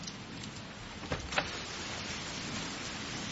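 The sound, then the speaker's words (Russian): Heavy rain pouring down at night in Vrindavan, India, around a car stuck in a puddle: a steady, dense hiss runs throughout, with two brief louder knocks partway through. “Такой ливень и на ночь глядя, да?”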